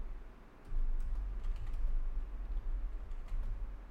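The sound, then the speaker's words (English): Computer keyboard typing as a web search is entered, brisk, irregular keystrokes tapping along at a soft level with brief pauses between bursts. “Oh, I'm just gonna type Dr. Dre Houseworth.”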